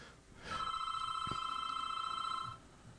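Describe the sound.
A telephone rings for an incoming call: a single steady, faint ring lasting about two seconds, starting and stopping cleanly with no voices.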